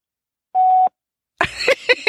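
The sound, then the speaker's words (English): A phone call goes to voicemail: one steady mid-pitched beep sounds alone, followed after a short silence by a voice speaking. “That's her voicemail. Of course she didn't answer.”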